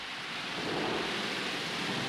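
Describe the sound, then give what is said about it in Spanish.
Torrential rain on the first day of heavy downpours, with a typhoon approaching, forms a dense, unbroken hiss that stays loud and steady throughout, with no voices. “Este es el primer día de lluvias torrenciales. Nunca había visto llover así.”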